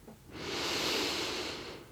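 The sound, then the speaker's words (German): A deep inhale through the nose by someone seated with eyes closed during a guided relaxation: one breathy hiss that swells and fades over about one and a half seconds, alone with no talk. “Atme noch einmal tief ein in die Nase”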